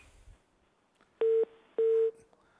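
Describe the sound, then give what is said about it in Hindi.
Two identical electronic beeps mark a dropped phone call. Each beep is a loud, steady mid-pitched tone lasting about a quarter second, separated by a brief gap, with near silence before and after. “तो ये हमारे पास call drop हो गई”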